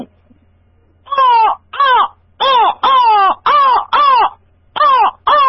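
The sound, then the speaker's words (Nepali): A human voice imitates a crow cawing as a comic impression. After a short silence come eight loud, harsh, nasal caws in a steady, evenly spaced rhythm, with no talking between them. “म एउटा caricature नै गर्छु नि त, सुरुमा चाहिँ म कागको कराउँछु है त”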